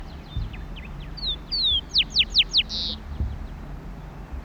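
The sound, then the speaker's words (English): A rufous-collared sparrow (Zonotrichia capensis) sings in open country with tall bushes on Isla Victoria: thin, high slurred whistles, then a quick run of descending notes and a final buzzy note, over a low background rumble. “Zonotrichia capensis, rufous coloured sparrow.”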